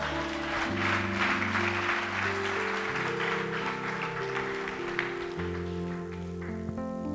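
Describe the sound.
A church audience applauding, the claps forming a dense, continuous patter over steady music with sustained low tones, lasting throughout with no speech.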